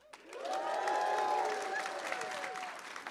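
Live audience applause with some cheering at the 2024 FTA Technology Conference: clapping swells quickly in the first half second, holds strong and dense, then eases slightly toward the end.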